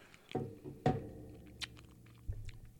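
Chewing on crunchy fried food with a crisp outside and a softer inside: a few sharp, spaced-out crunching bites with quieter mouth sounds between them and no talk.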